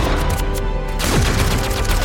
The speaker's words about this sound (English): I'm running out of ammo! Belt's almost done!